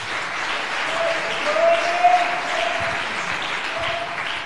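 An audience claps its hands at a revival service held in a correctional centre, producing a steady, dense wash of applause that swells briefly in the middle.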